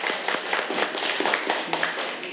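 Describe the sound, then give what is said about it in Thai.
Students applauding a class representative in a classroom: light, fairly quiet clapping from a small group, with rapid uneven claps running throughout. “ปรบมือให้กับตัวแทนของเราค่ะ”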